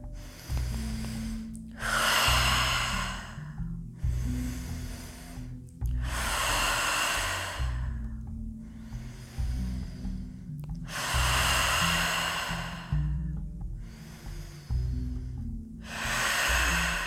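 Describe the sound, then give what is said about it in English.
Deep breathing during a meditation: slow, loud inhales and exhales follow one another in a steady rhythm, with many breaths across the stretch and no talk. “And to take deep breaths.”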